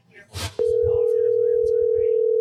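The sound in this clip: A steady phone dial tone on an outgoing call to an uncle starts sharply after a brief voice and holds at one unbroken, loud, even pitch to the end.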